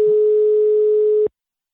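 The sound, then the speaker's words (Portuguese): The ringing tone of an outgoing phone call to a customer: one flat, steady mid-pitched beep. It holds for just over a second, then cuts off abruptly into silence. “Ela tá chamando Vanusa.”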